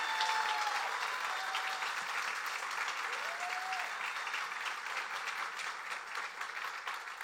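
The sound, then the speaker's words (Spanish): A church audience applauds in sustained clapping, a dense, even patter that holds at a moderate level throughout with no pauses. “Entonces le podemos dar un aplauso al Señor por su fidelidad. Can we give God a hand?”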